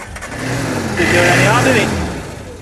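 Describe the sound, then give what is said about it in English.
A Jeep engine runs, a stripped-down Jeep built for jumping. The strong motor drone swells in the middle with shifting harmonic tones, then eases off. No talk is heard over it. “For their jumping Jeep, they just want the bare bones and that motor.”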